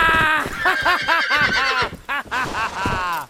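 A ridden horse neighs loudly in a long, trembling whinny of rapid wavering pulses, dipping briefly near the end before a last shorter call.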